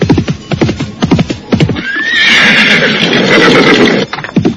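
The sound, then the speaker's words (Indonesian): A horse with a rider approaches. Quick, steady hoofbeats clop, give way to a loud, drawn-out whinny, and then resume briefly at the end. “Lihat. Siapa orang berkuda itu?”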